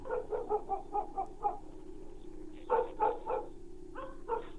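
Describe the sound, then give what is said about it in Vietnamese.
Dogs bark from a village in rapid clusters of sharp, mid-pitched yaps, pausing briefly between bursts over a steady low background hum. “Đâu đó văng vẳng từ bên làng, tiếng chó cắn ma cứ vang lên.”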